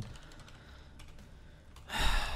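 Someone types a message on a computer keyboard with quick, soft key clicks, quiet and without talk.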